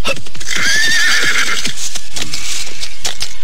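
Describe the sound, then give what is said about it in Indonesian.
A horse at a city gate gives a loud, high, wavering whinny lasting about a second. Hooves clip-clop around it. “Aku akan tinggalkan kuda ini agar tidak terlalu menarik perhatian.”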